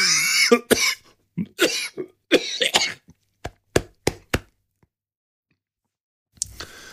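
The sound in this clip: Coughing after a sip went down the wrong way: a fit of loud, rough coughs is followed by several short, sharp hacks that trail off into silence, then one more brief sound at the end.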